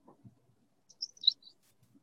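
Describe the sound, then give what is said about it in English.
Birdsong in a forest: a few short, high chirps in a quick cluster, soft and fairly faint, with brief low rustling before and after. “What a beautiful day to be in a forest. Oh, yeah, and that bird is beautiful.”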